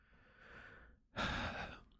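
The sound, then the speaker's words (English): A deep breath taken during a hand-tapping relaxation exercise: a soft, drawn-out inhale, a short pause, then a louder, breathy exhale that slowly fades, with no talking. “Tap on the side of the hand, take a nice big deep breath.”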